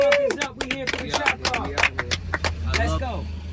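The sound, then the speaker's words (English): Hand claps from a few people, sharp and irregular, mixed in with lively overlapping male voices talking and calling out over a low hum. “Clap it up, man.”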